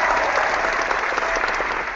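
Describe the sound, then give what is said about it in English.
A round of applause from a crowd, a dense, steady wash of clapping that stays loud for about two seconds before easing slightly at the end, with no voices on top. “Let's give a round of applause. Everybody rejoice.”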